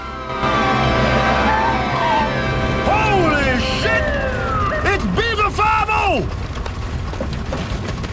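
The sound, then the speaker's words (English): Police car sirens surround a plane stopped on an airstrip, with several overlapping wailing tones that swoop up and down in pitch over a steady low rumble. “As they stop on the airstrip, they're suddenly surrounded by police cars.”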